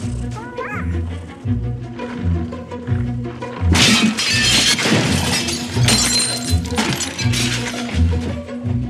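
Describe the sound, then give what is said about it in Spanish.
Shop window glass smashed with a toy: a sudden loud crash of shattering glass with scattered tinkling debris, set over pulsing low music. “Billy coge un juguete del escaparate y golpea el cristal.”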